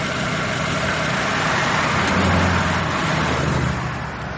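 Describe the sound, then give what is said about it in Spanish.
A luxury car pulling up and stopping in front of a doorway, its engine a steady low hum that swells slightly partway through and then eases off toward the end. “Al poco Ramón detiene su lujoso coche frente a un portal en el que espera Javi.”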